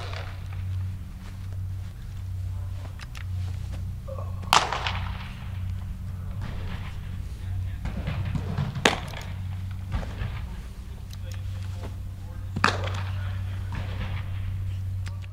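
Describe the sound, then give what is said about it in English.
A baseball smacks into a glove as pitchers play catch indoors: three loud, sharp pops spaced several seconds apart, with a few fainter clicks, over a steady low hum. “that was the sound of two of his pitchers playing catch indoors.”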